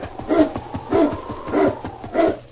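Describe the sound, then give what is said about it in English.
A sled dog team whimpers in four high, whiny yelps spaced evenly about half a second apart, each a short rising-and-falling cry standing out alone. “Say, that's a dog team.”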